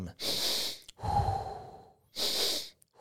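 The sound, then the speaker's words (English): Quick breathing of a double-inhale power-breath technique used in race-day effort at elevation and in cold air: two hissy intakes frame a lower, rougher breath in between. The breaths are fairly loud and nothing else is heard. “that little double inhale. Little power breath.”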